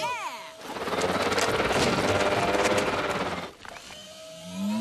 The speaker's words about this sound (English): We need something really big to mix it. Did somebody call for a really big mixer?